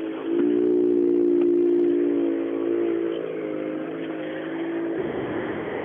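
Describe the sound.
A rally car engine drones in with a strong, steady tone as it drives up to the stage finish, loud throughout and easing slightly toward the end, with no talk over it.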